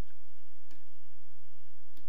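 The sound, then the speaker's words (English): Two faint, sharp computer mouse clicks, roughly a second and a quarter apart, over a steady low electrical hum during image-editing work. “So once I hold option down and click down on the mouse, it's going to start drawing.”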